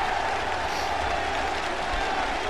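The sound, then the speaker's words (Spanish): Applause rises as a steady, dense wash of clapping from a crowd. It is moderately soft and holds evenly for about two and a half seconds, with no clear individual claps. “Así que yo le daría un aplauso. Venga, para una vez que tenemos a alguien que va a dar un aplauso.”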